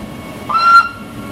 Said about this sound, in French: On se dirige maintenant vers la gare en nous prenant le train direction le sommet.